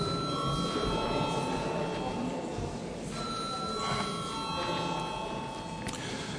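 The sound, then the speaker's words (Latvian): An electric bell rings in a parliament chamber to call members to a vote, giving a continuous, steady metallic buzz with a few high tones on top and no pauses throughout. “Lūdzu zvanu.”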